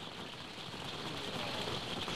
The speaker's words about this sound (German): wie man hört, es regnet gerade ziemlich dolle